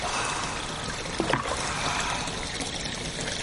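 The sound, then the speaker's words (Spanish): Water poured from bowls over a person's head as their hair is rinsed, a steady rushing trickle with a brief, brighter splash near the middle. “vierte varios cuencos de agua sobre su cabeza.”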